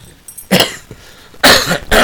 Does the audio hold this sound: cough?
yes